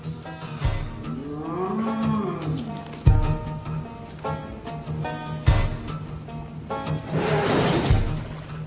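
Corn-fed cattle mooing on a farm: several long, low, drawn-out moos and louder bellows overlap, rising and falling in loudness, with occasional dull thumps.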